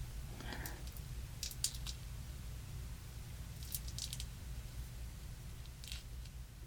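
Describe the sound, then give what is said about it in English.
Dried glue being peeled off a hand, faint sticky crackles in a few short bursts separated by quiet hiss. “the glue has mostly dried on my hand. I'm not sure if I made it thick enough to get a good peel, but we'll see.”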